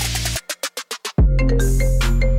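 An electronic answering-machine tone sounds before a message: a sustained tone, then a quick run of short beeps, then a swooping glide into a loud, held electronic chord.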